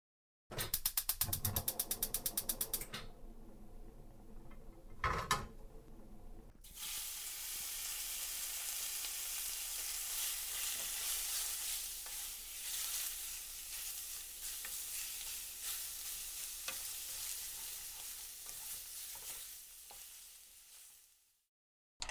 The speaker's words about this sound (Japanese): 料理を始めてしまいますね。オムライスで構いませんよね。